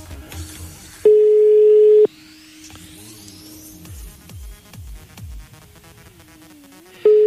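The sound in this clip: Ringback tone of an unanswered telephone call: a steady, loud, low beep lasts about a second, then a long pause with faint tones and noises before the next beep starts.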